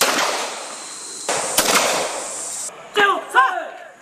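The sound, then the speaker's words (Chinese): Sharp pistol shots ring out in a rapid-fire shooting drill at pop-up head targets and fixed steel targets during a military competition. A few loud, unevenly spaced cracks stand over steady background noise. “手枪识别快速射击课目首先展开，参赛队员向窗口靶投掷模拟手榴弹后抵达射击点位，对引显头靶与固定铁靶展开射击。”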